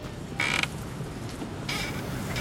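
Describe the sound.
A playground swing creaks twice, each a drawn-out, high squeaky groan of the moving chains or joints, separated by about a second of quiet background.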